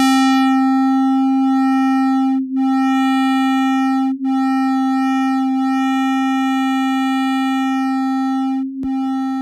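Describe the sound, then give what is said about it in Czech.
Sun's natural pulsations converted straight into audible sound: a steady, pure sine-like tone with faint higher overtones forms a constant hum, broken by three brief dips in loudness. “I oscilace slunce jsem převedl na zvuk, ale pozor, v tomto případě nebylo potřeba škálovat, protože slunce pulzuje na frekvencích, které jsou pro nás pohodlně slyšitelné. Takže nebýt vákua vesmírného prostoru, znělo by slunce asi nějak takto.”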